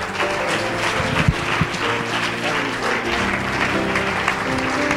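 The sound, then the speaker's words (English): Enthusiastic applause during a church service as the audience gives praise, a crowd clapping loudly and steadily for several seconds in an even, unbroken roar of hands. “Let's give the Lord a hand praise tonight.”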